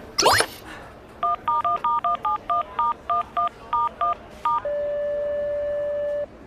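Telephone keypad dialing a number: a brief noisy burst, then a quick, slightly uneven run of clear touch-tone beeps, followed by one steady tone held for over a second.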